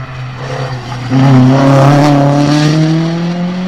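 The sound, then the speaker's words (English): Ford Escort BDA rally car engine with a steady droning note that swells louder after about a second and climbs gently in pitch as it revs, holding strong to the end. “Oh, the old BDA Escort. There we go. Oh, this is a bit of a weapon.”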